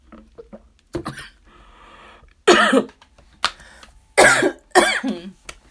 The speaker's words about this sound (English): Ooh, child, that wine went down the wrong pipe, man. Excuse me, y'all.